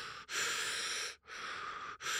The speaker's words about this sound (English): I discovered a thing called breath work in there, which is an hour and a half of you basically just laying down and breathing really hard